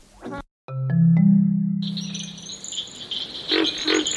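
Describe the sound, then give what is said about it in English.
Dawn in the Okefenokee Swamp, from a mid-1970s recording: a low, sustained droning call rises over dense insect trilling, followed by a few high, repeated chirps. “So we're listening to Dawn in the Okefenokee Swamp, recorded in, I believe, the mid-70s.”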